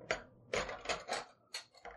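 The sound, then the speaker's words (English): Metal spoons being grabbed and clinking together as individual plates of fudge are set out: several short, bright metallic clinks and rattles at uneven intervals, fairly quiet, with no talk. “And I'm grabbing spoons. It's the sound of spoons”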